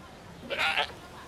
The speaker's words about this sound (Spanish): ¿Puedes dejar de estrangular a mi chivo?